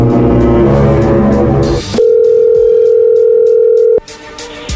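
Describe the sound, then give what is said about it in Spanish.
A telephone call connecting, marked by a steady, unbroken dial-type tone that holds for about two seconds, with other busy sound before it and after it. “ahí entró la llamada”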